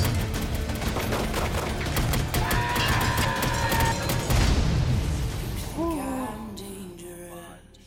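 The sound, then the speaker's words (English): Gunfire crackles in a film trailer: rapid, dense volleys of shots and booms for several seconds, easing off as sliding tonal sounds rise near the end. “You're being shot at? Oh, yeah.”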